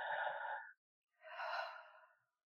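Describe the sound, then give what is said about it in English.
A deep inhale and then a slow exhale during a guided relaxation breathing exercise. Two soft, airy breaths are separated by a short pause, and no voice is heard over them. “And inhale one more time into your heart. And exhale.”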